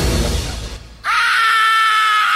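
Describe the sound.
A loud human scream bursts in abruptly partway through: a sustained, strained, high-pitched cry that holds steady to the end. Before it comes a stretch of rough, noisy sound that dips briefly into near-quiet.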